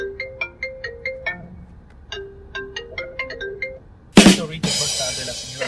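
A mobile phone ringtone plays for an incoming call: a melody of short, bright, high notes repeats in two phrases separated by a brief gap, then gives way to a sudden loud burst and rougher noise.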